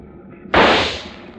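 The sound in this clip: A single rifle shot fired from a boat at a large fish in the water: one sharp, loud crack over a low hum, with a tail that fades over about a second.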